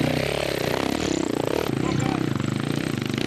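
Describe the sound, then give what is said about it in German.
A KTM trials motorcycle with a long swingarm and roughly 6 hp hydraulic front-wheel drive, running on a steep competition course. Its engine gives a loud, rapid, pulsing buzz mixed with rattling clatter, holding fairly steady throughout. “Dreimal stellt er seine KTM mit langer Schwinge und etwa 6 PS hydraulischem Vorderradantrieb auf dem höchsten Punkt der Strecke ab.”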